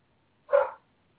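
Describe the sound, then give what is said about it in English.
A dog gives a single short bark, fairly faint and alone against near silence. “along with this dog barking that won't shut up. Quiet!”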